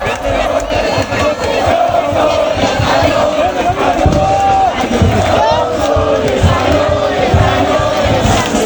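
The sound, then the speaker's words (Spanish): Thousands of mostly young football fans celebrate Spain's win in the Plaza Mayor of Burgos, with loud, unbroken cheering, whooping and shouting from a massed crowd. “Miles de burgaleses vivieron la noche de ayer como algo que ya está dentro de los libros de historia del fútbol mundial y de la sociedad española. Aquí en Burgos, la Plaza Mayor se vistió de los colores y camisetas de España con una masiva presencia de gente joven.”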